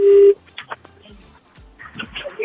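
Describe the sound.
A telephone keypad gives one short, loud, steady tone as a number is dialed, then people talk over faint low clicks.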